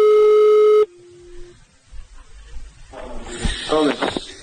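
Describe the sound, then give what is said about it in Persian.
A telephone call tone opens a recorded phone call to military commanders: a loud steady buzzing tone for under a second, then a fainter, lower tone, followed by line noise and a muffled voice beginning to speak. “روزنامه واشنگتن پست فایل صوتی تماس یکی از ماموران منتسب به موساد با فرماندهان نظامی ایران را منتشر کرد”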